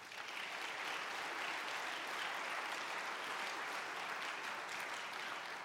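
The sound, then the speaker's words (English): An audience claps to welcome a speaker, a dense, even roar of many hands that holds steady throughout without a break, fairly faint overall. “let's put our hands together now and welcome George Paul Wood.”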